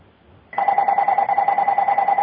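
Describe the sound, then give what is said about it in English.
An electronic telephone ring starts abruptly after a brief quiet moment and carries on as a steady, pulsing two-tone warble that stays loud and even to the end, with no voices. “Sorry for the phone. That's okay. Someone's trying to call through.”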